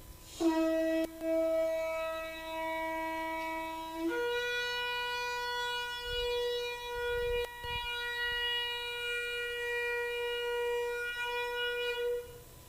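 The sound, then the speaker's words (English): A ceremonial horn or trumpet sounds one long sustained blast during worship. A low note is held for a few seconds, then jumps to a higher note held steadily to the end, with no voices. “And that sound is to be held until those who blow the horn are completely out of breath and cannot blow anymore.”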